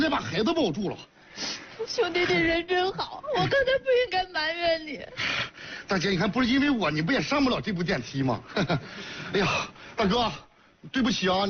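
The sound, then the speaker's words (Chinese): A pregnant woman cries and whimpers while trapped in a stalled elevator, with wavering, high-pitched sobs and wails that rise and fall in many uneven bursts separated by brief catches of breath. “大姐，你别哭啊，没事，我告诉你说啊，有我们呢啊”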